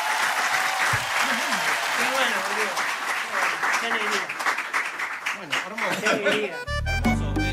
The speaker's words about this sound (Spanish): Fuerte los aplausos, tremendo.